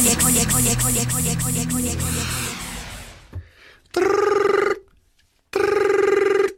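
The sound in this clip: Telephone ringing in a radio studio: two long, bright electronic ring bursts separated by a short silence, loud and clear with no talk over them. A louder, busy stretch of other sound comes first.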